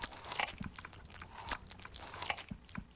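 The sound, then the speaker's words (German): Greedy smacking and chewing come from a balcony, with faint, wet, crunchy bites and mouth noises in an irregular rhythm, rising and falling softly. “Da drangen leise und gierige Schmatzgeräusche durch die angelehnte Balkontür.”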